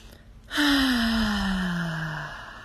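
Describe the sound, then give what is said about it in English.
A deep breath let out as one long audible sigh, a voiced exhale that begins abruptly and slides gradually lower in pitch for nearly two seconds before trailing off. “Taking that deep breath.”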